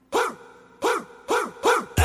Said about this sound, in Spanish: ya sé que no son mañanitas, son ladraditas